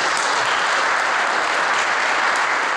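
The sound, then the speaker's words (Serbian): Applause in an assembly hall, a broad, steady roar of many people clapping at once, dense and even in loudness from start to finish with no voices above it. “Aplauz bez glasa protiv ili prigovora”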